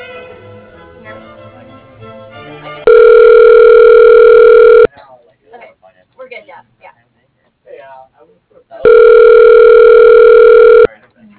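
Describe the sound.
A telephone ringback tone sounds while a call is transferred to voicemail: two long, loud, steady tones separated by several seconds of quieter, faint sounds, after a stretch of low background noise.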